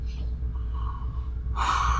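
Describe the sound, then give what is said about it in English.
A deep inhale taken during a guided calming exercise: a soft breathy rush swells near the end over a steady low background hum, with a fainter airy breath earlier. “Take that deep breath. And why don't you take another deep breath, that good inhale.”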